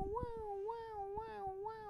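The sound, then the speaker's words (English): A voice imitates a police siren with repeated 'wow' wails. The pitch swings up and down in several even cycles, quiet and alone. “The police, if you didn't know what that sound was.”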